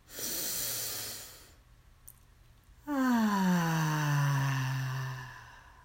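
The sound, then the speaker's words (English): Deep belly breathing: a long, airy inhale, then a loud exhale released as a voiced sigh that slowly falls in pitch. “So let's breathe in, extending our belly. And exhale, contracting our belly with a loud sigh. Breathe in.”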